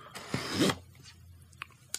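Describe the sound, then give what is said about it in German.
Cutting open the seal on a cardboard product box for a 5G receiver: one brief rasping slice, followed by a couple of faint clicks. “Jetzt schneide ich also das Siegel mal auf”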